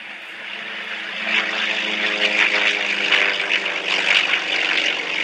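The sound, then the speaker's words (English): Propeller engine roar of a Yak-50 aerobatic aircraft accelerating and climbing away after takeoff: a steady, loud, buzzing drone with a layered harmonic hum, swelling slightly after the first second and holding strong throughout. “It's accelerating quite quickly. Acceleration rate is tremendous in a Yak-50.”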